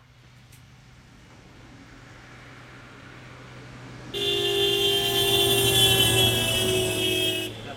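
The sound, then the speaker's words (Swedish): Street traffic in Stockholm during a taxi disruption: a steady low road rumble, then a loud, sustained car horn blast of several seconds that stops abruptly near the end. “vi kastar oss ut i trafiken. Får se om det låter så här.”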